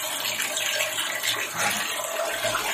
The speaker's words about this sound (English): Water filling up.